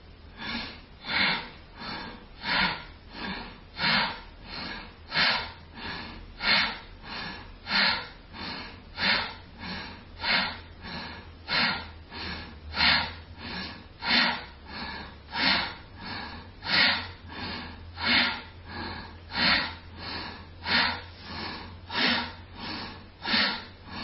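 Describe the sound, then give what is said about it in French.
Ujjayi yoga breathing, exhaling completely: many steady, evenly spaced breaths with a hissing, throat-constricted rush of air. The breaths pulse regularly and fairly loudly, with no talking. “Et on va commencer en expirant complètement. N'oubliez pas l'Ujjayi.”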